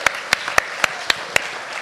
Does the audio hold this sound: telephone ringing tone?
no